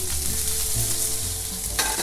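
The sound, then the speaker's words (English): Food with brown, crispy bits sizzles and fries loudly in a pan that is shaken hard, giving a dense, steady crackle throughout, with no talk. “once you see some brown crispy bits at the bottom, just give your pan a really hard shake.”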